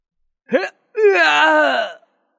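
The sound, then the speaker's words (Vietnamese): An agonized, heart-rending human scream: a short sharp cry, a brief pause, then a loud, sustained wail of about a second whose pitch sags slightly toward the end. “Một thanh âm kêu thảm tê tâm liệt phế vang lên.”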